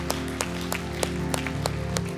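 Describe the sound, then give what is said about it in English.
A church audience claps in celebration, a quiet, steady rhythmic beat of many hand claps over sustained music tones. “Come on, can we clap our hands, celebrate that together for a moment?”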